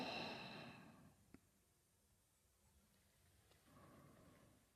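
Deep breathing during a stethoscope check: a loud, breathy exhale opens, followed by quiet and then a softer breath toward the end.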